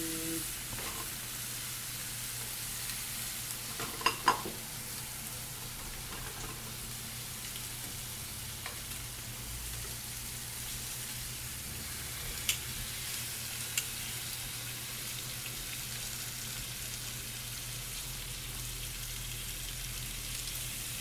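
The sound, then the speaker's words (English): Bacon sizzles in a frying pan with a steady, crackling hiss. A few sharp pops stand out above it, and no voices are heard. “So that's the amazing sound of bacon. It's the best. Nothing like it.”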